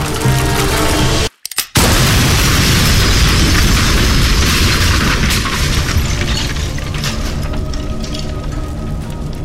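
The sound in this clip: A shotgun blast sets off a propane tank. After a brief dropout, a loud booming explosion bursts out and gives way to a sustained, rumbling roar that slowly eases.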